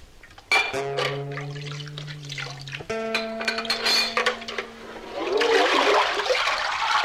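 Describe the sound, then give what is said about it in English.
Water poured from a sink into a bottle: a steady, ringing tone that steps higher partway through, then a louder, rushing gush of water at the end. “Dude, is he reversing water in there? Seems like he's pouring it out of the sink and into the bottle.”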